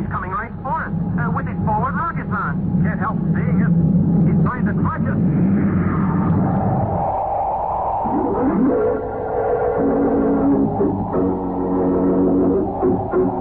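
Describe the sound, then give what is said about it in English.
Rocket-engine sound effect of a spaceship coming in for a landing in a vintage science-fiction drama. A wavering droning roar with sweeping tones builds under people talking and continues to the end. “Commander, there's a spaceship coming in for a landing.”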